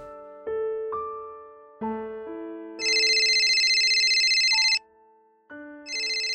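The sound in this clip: A phone's electronic ringtone signals an incoming call, beginning with a melodic run of clean beeping notes before a bright, buzzing trill sounds for about two seconds and then starts again.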